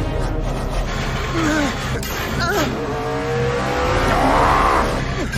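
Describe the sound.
Race cars speed along the home straight toward the finish line, engines roaring continuously. Several wavering, rising whines and squealing tones cross over a dense, loud rumble.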